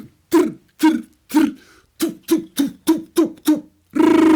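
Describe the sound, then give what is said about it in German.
A voice imitates machine gun, Uzi and bazooka fire with nine short, throaty bursts in a quick rhythm, then ends on a longer, harsher buzzing blast. “Was ist denn das für eine Gun, Alter? Das sind zwei gewesen. Machine Gun, Uzi, ein 3 eigentlich und so eine Bazooka.”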